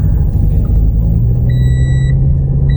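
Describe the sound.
Car engine rumbling loud and steady as the vehicle sets off, a low continuous drone throughout, with a steady high-pitched beep joining briefly partway through.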